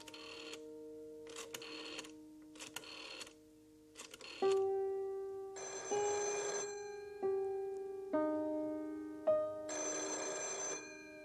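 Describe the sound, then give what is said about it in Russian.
A telephone rings in an apartment in several short bursts, alongside sustained, steady electronic tones that change pitch in steps. No voices. “Телефон в квартире Бананана.”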